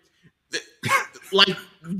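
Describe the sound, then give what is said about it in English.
A cough performed for a cartoon recording session comes as a few rough, breathy bursts of rising and falling loudness, close to throat clearing, with no words spoken. “Mel Blanc is here to provide a cough”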